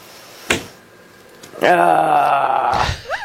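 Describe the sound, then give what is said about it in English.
A woman's long, drawn-out groan closes a recorded rant. A single sharp thump comes first, then a voiced, low, moaning sound holds for about a second before brief vocal sounds follow. “That's my favorite part right there. That part at the end. You know, I for some reason, I relate to that groan right there.”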